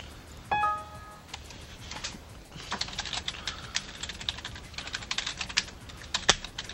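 Typing on a computer keyboard: many quick, irregular key clicks in a steady patter, with a brief tonal beep near the start.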